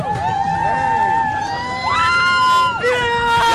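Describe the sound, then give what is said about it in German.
A crowd at a Pride parade cheers and shouts loudly, with shrill voices and whistle-like tones sliding up and down over a dense, continuous wash of noise. “Leute, macht mal ein bisschen Lärm!”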